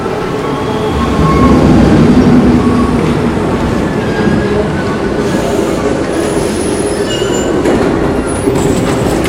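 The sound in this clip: A metro train at a station platform gives a steady, loud rumble and rolling rattle throughout, with faint high wheel squeals coming in near the end and no clear voices.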